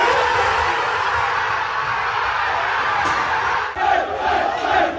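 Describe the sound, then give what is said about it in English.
The Arsenal football squad cheers and shouts on learning they are Premier League champions, a dense, loud roar of many voices that holds steady throughout, with a few sharper yells near the end. “This was the sound of the Arsenal squad finding out that they were Premier League champions.”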